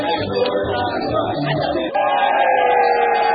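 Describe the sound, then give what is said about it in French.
Young people in a Congolese bar cheer the first seconds of New Year 2013 in a loud, sustained burst of shouting and whooping voices, which dips briefly midway and then swells again. “Nous vivons les premières secondes de l'année 2013 que les jeunes dans ce bar viennent d'acclamer.”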